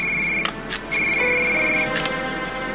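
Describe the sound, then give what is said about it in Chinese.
Telephone ringing with a steady electronic ringtone, high sustained tones broken by a few brief gaps and clicks, heard alone. “接电话。”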